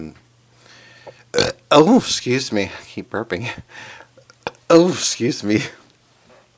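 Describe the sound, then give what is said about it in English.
Burps from a person who is talking come up a few times, deep and voiced with a croaky, gurgling quality, woven between stretches of speech. “I don't know why I keep burping, I don't drink anything.”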